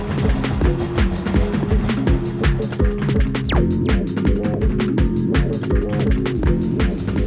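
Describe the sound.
Motorcycle engines running as they warm up before a ride, a continuous low throbbing rumble with an uneven pulsing beat that holds steady throughout.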